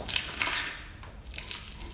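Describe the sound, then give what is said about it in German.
Squishing crunch of a cricket being crushed, a sound effect in a comic stage production: a few soft, wet, crackling bursts, fairly faint, with no voices. “Zwischen blauen Stellwänden und roten Möbeln zirpt eine Grille, bis sie vom Arzt Astroff zerquetscht wird.”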